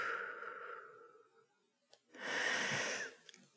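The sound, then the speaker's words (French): A long, forceful exhale during a foot exercise, with a steady rush of breath, follows a softer, breathy sound and a brief pause. “Une fois, pensez à souffler aussi.”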